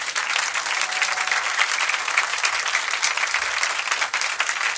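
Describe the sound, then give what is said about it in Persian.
Audience applause at a Persian-language devotional recital: dense, steady clapping from many hands that holds at an even level throughout, with no break and no voices on top. “یه دست قشنگ بزن.”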